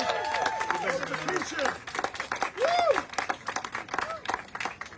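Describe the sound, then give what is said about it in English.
Audience applause welcomes a congressman onto the stage, with dense, steady clapping and voices cheering and talking over it throughout. “And everyone, put your hands together and help welcome him.”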